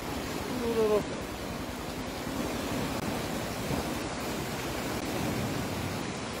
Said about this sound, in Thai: โอ้น้ำป่าไหลหลากครับตำบลปากซ่องหล่มสักเพชรบูรณ์ครับเข้าท่วมบ้านเหลียงดังหนักเลยครับนะ